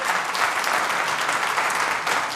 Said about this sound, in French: on peut t'applaudir.